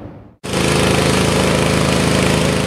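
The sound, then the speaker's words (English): A pressure washer cleans the pavement at a double-homicide crime scene in front of the Sundial Hotel in Whistler. After a brief pause its loud, steady motor drone starts abruptly and holds an even, dense roar to the end. “Power washing away the remnants of a double homicide in Whistler.”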